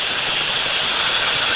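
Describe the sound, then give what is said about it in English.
Hissing of a serpent rendered as a sound effect: one loud, steady, airy hiss with bright high-frequency texture that holds unbroken and even throughout, with no pauses. “I picked a serpent. I thought that was most appropriate. The hissing of a serpent.”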